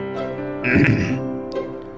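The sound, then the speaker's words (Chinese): A man's single dry cough, the kind a gentleman gives when pretending not to hear, on a rainy day under a tree. It is a short, rough burst near the middle, heard over a steady tonal background. “绅士干咳了一声，眼睛往上瞟，装作没听见的样子。”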